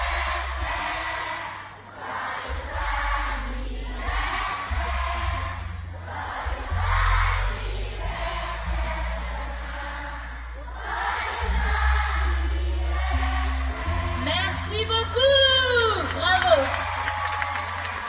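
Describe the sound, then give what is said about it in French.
A large audience at a live show sings Happy Birthday in French, loud and in unison, with many voices rising and falling through each phrase and lively whoops near the end. “Alors, à trois, on le chante très très fort. Joyeux anniversaire, d'accord? Un, deux, trois. Joyeux anniversaire.”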